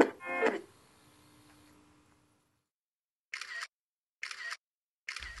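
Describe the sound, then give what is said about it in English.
Three crisp iPhone camera shutter clicks while taking a selfie with a baby, evenly spaced and separated by silence, after a brief softer noise at the start. “turn on her iPhone to take a selfie with the baby”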